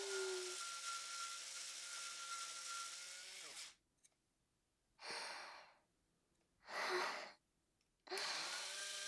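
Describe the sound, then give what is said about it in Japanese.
An electric device scrapes across skin with a steady, buzzing motor whine that runs for several seconds and stops. Two short, hissing bursts follow, then the whine starts again at the end. “この皮膚を削る音、たまらないです。”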